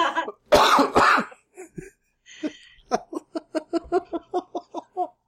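Two harsh, rough coughs from a person with an ongoing cough, brought on by laughing, followed by a long run of rhythmic, breathy laughter pulses that keep a steady beat to the end.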